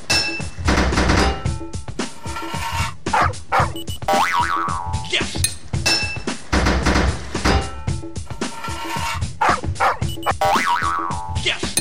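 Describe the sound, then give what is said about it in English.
A hammer striking a pipe in a video game, heard as springy, boing-like thunks and knocks that repeat in a rhythmic sequence. The pattern cycles twice and stays loud throughout. “5 hits of your hammer to fit a pipe.”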